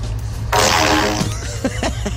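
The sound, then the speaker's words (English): A fart blown into a pipe at a hardware store: a loud, buzzing blast with a resonant hollow tone, followed by a few shorter sputtering bursts as it trails off. “I'm at Home Depot with the pipe, and I'm going to fart in it.”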